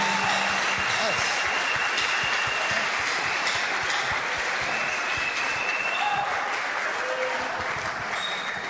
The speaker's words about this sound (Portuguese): Come on, palmas para o Senhor. Palmas para o Senhor.